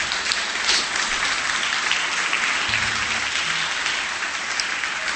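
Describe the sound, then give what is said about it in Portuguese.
A church audience applauds together at a worship service, steady dense clapping that holds at an even level for about five seconds with no voices over it. “A igreja diz: glória a Deus. Podemos aplaudir Jesus,”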